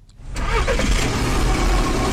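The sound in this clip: A car engine starts after a brief quiet moment and settles at once into a loud, steady running rumble with no break, the car about to set off on an early-morning drive.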